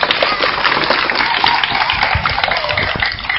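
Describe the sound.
An audience of children claps hands at a Buddhist gathering, a dense, steady patter of many hands that continues evenly at a moderate level throughout.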